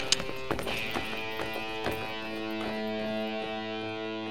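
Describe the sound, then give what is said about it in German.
Hooves of a trotting horse clip-clop in a steady, fairly faint rhythm beneath sustained musical tones in a Western radio drama, with the rider mounted high on the horse. “Sartana thront derweil längst wieder außerhalb der Menge, hoch auf seinem Gaul. Gute Nacht, Willi. Trab an, Theophil.”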